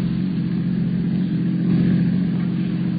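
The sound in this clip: A car engine drones steadily while driving, a low, even rumble that swells slightly midway and keeps going without pause.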